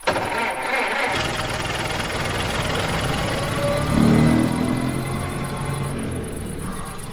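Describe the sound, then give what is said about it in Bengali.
A car engine starts with a short burst, then settles into a steady rumbling idle that swells briefly midway before easing back. “কুমারের গাড়ি বেরিয়ে যাওয়ার পর আমরা বাড়ির দিকে ফিরলাম”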